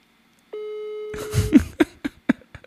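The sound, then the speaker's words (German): While a phone call is being placed, a single steady telephone tone holds for about a second. Several short, sharp clicks and knocks follow. “So, Telefon tutet.”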